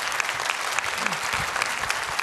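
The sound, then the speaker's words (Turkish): Audience applause fills a live stage show after a performer is introduced. Dense, steady clapping from a crowd holds at an even level throughout. “Harikasın efendim, alkışlarınız Efe Ateş için gelsin.”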